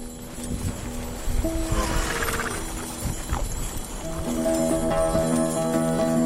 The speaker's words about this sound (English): We hitch up to one of the fancier antique sleighs that'll be selling at auction in a few days and take it out for one last spin around the farm.